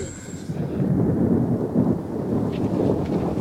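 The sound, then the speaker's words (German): Thunder rumbles as a dramatized, magically conjured storm effect: a deep, continuous roll of low rumbling noise swells and settles without sharp cracks, alone with no voices. “Ich kann Blitz und Donner befehlen.”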